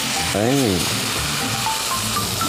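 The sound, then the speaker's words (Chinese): Steady sizzling as boiling water goes into salted egg yolk frying in a pan over medium heat: a continuous loud hiss that runs throughout, with a brief voice sounding over it. “这个时候我们把火调到中火，然后加入开水，”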